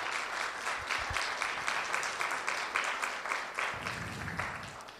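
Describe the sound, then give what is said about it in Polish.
Audience applause welcoming guests at a church gathering: steady, dense clapping from many hands, fairly quiet and continuous throughout, with no voices standing out. “teraz gromkie brawa i aplauz na ich przywitanie.”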